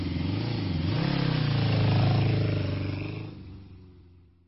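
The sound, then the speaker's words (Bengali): A motorcycle pulls out of a parking lot, its engine droning and rising in pitch and loudness for a few seconds before the sound fades away. “নিজেকে সামলে নিয়ে bike parking lot থেকে বের করে রওনা দিলাম বাড়ির উদ্দেশ্যে।”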